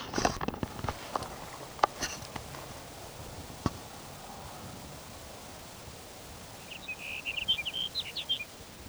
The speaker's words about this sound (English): There's sage sparrow number two for the morning.